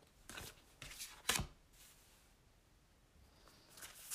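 Tarot cards are shuffled and drawn during a reading, giving a few quiet, crisp rustling snaps and slides separated by short pauses.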